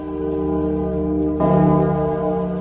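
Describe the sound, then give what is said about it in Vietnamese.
A bell rings out a second time with a deep, resonant tone: a sustained ringing hum carries through, then a fresh strike partway along swells brighter and louder before settling back into the lingering ring. “Nhưng đúng lúc này, tiếng chuông lại tiếp tục lần thứ hai vang lên.”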